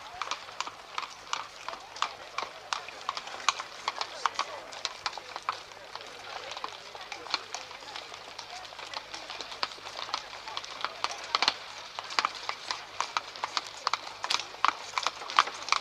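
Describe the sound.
Hooves of a horse pulling a cab clip-clop steadily, with many even, fairly quiet hoof strikes in a continuous trotting rhythm.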